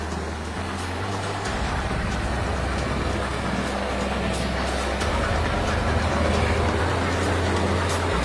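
A fishing boat arrives with a continuous, loud engine drone and a low rumble, heard steadily throughout without a break.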